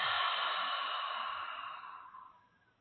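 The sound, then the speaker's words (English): A deep breath out through the mouth during a guided breathing exercise: one long, airy exhale that starts strong and fades gradually to near silence over about three seconds. “Take a deep breath in. And hold. And breathe out through the mouth.”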